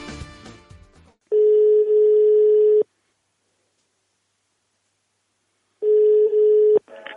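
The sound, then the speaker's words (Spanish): Ringback tone of a telephone call placed to a town hall, two steady mid-pitched tones of about a second and a half each, separated by a long stretch of silence. “esto ha sido la llamada que hemos hecho esta mañana.”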